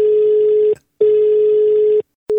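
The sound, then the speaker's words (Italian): A telephone rings for a radio call-in: a loud, steady electronic ring tone in long bursts with short silent gaps between them, and a third ring just starting at the end; no one speaks. “Andiamo subito al telefono, su Radio Toscana”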